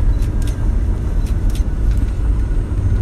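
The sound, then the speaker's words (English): A car drives along the road to Denver with a steady, loud, low rumble of road and engine noise. A few faint ticks sit on top, and no one talks. “Well, I am driving to Denver.”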